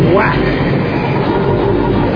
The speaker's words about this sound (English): Do you know if this train goes to Madison Avenue?